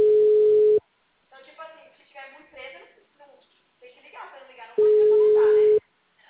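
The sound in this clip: A phone call produces a ringback tone: two long, steady, mid-pitched beeps of about a second each, separated by a few seconds in which a voice speaks.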